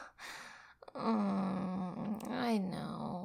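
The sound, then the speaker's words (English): Muffled groaning through a gag, a brief stifled sound followed by a long, sustained voiced moan with a low, steady pitch that stays fairly loud to the end. “Stop groaning into the gag.”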